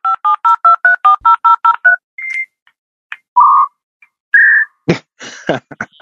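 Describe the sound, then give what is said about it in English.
Telephone dialing toward the Bahamas with a failed connection handshake: a rapid, evenly spaced run of many touch-tone beeps, then a few separate steady tones, ending in short, harsh, warbling data bursts. “I was just trying to get in touch with the Bahamas right now. This is what I got, if you want to hear it.”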